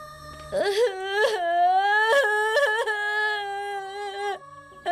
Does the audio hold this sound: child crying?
yes